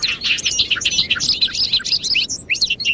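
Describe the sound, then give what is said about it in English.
Bobolinks calling in a large hayfield in western New York State in early May. Dense, bubbling, high-pitched chirps and warbles run continuously with no pauses and no voices. “We're standing in a large hayfield in western New York State, where bobolinks are returning to nest.”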